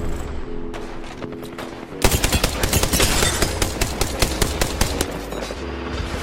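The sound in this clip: Gunfire in the video game Apex Legends. A quieter stretch breaks after about two seconds into a loud barrage of many rapid shots in quick bursts that carries on to the end.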